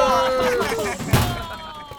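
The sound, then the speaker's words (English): A locker door slams shut with one dull, heavy thud partway through, under urgent talking voices. “Okay, now hold the door open, boys. I got it. To the locker!”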